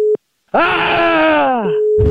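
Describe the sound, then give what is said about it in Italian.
A telephone busy tone after a call is hung up. A short tone pulse is followed by a long, drawn-out groaning sound that falls in pitch, and the steady tone returns beneath it near the end. “Questa cosa non ci voleva. Dopo questa chiusura telefonica, Ennio non ha più risposto”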